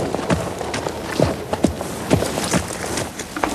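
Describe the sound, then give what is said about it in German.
Hoofbeats of a horse ridden out of a dressage arena after a competition test, a steady run of many clip-clop strikes at an even walking rhythm, moderately loud. “So pariert sie durch, bringt Josefina vor den Prüfern zum Stehen und verabschiedet sich mit einem Gruß, bevor sie vom Platz reitet.”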